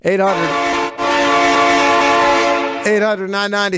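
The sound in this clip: A train horn sound effect blares loudly. A short blast leads into one long, sustained multi-tone chord, and then several short, choppy blasts close it out.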